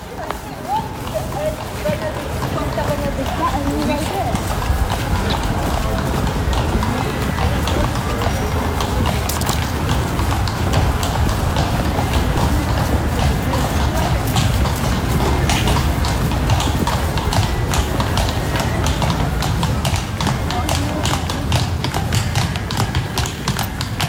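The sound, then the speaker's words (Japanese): A horse clip-clops at a steady pace, drawing a carriage through the streets of Kraków, with many even hoof taps continuing throughout. “聞いただいたのは馬の足音でした。”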